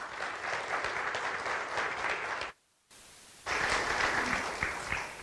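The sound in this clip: Church audience applause welcoming a speaker at Pacific Beach United Methodist Church: full, even clapping that cuts out abruptly midway, returns faintly for a moment, then surges back at full strength to the end.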